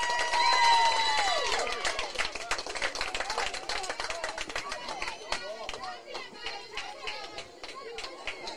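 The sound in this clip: Fans cheer and clap at a Little League baseball game after a big base hit. Shouts and a brief high cheer come first, followed by ongoing scattered clapping and crowd chatter, with a voice speaking over it.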